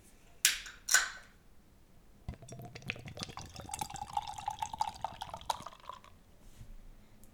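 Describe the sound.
Hazy fruit beer with vanilla being poured into a glass: two short, sharp ticks, then a faint, steady splashing pour lasting a few seconds, its tone rising slightly as the glass fills.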